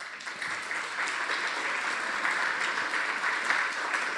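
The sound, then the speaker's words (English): Audience applause for a speaker at a Goldman School gathering: dense, steady clapping that holds at an even, fairly soft level for about four seconds. “Henry, maybe I don't have to say anything because you got applause before I even, just your name elicits that kind of enthusiasm.”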